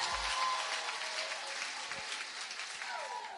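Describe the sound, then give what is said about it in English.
A church audience claps together during a worship service, a dense, even patter of many hands that holds steady throughout with no break. “Clap your hands for Jesus one more time.”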